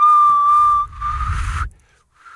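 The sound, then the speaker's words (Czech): A person trying to whistle: a steady, fairly high whistled tone holds for just under a second, then breaks into a breathy, airy blow with a low rumble of breath, followed by a brief faint tone at the end. “Ne, já jsem uměl aspoň zapískat. Tak ještě zkus.”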